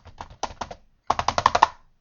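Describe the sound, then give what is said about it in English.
Keyboard typing as a telex message is entered: two bursts of quick, crisp keystrokes separated by a brief pause, the second burst louder and more evenly spaced. “I believe we are receiving a telex message. Let me just type this in.”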